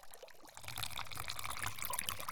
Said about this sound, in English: I'm going to clean you off with more hot water. And then we'll get ready for our soak.